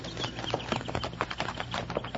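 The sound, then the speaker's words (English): Horses' hooves clip-clop on a rocky trail by a tunnel, a continuous patter of many quick, irregular hits over a noisy ambient bed. “those horses over there.”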